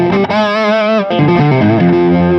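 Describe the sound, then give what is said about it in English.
Heavily distorted electric guitar played through a cranked Marshall Super Lead amp with the guitar volume fully up and no pedals. Loud, sustained chords ring out with a harmonically rich, gritty tone and change pitch partway through. “I really wanted to shoot for no distortion pedals at all on this whole tour, so I ended up with this Marshall Super Lead. Yeah. Where I just dimed the guitar for that.”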